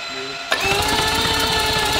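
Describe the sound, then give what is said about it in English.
Starter motor cranking a four-rotor rotary engine: a sharp click at engagement, then a loud, steady mechanical whine with rapid, buzzing pulses that run on without a break. “I only have an on off for the starter. So it's gonna be on and then I have to turn it back off.”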